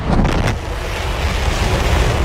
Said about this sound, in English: SpaceX's massive Starship rocket sent into orbit today for the first time.